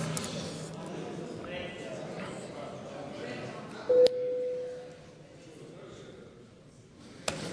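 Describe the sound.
A voting bell sounds in the Latvian parliament chamber: a single steady mid-pitched electronic tone lasting about a second, heard right after a stretch of talk and followed by quieter room noise.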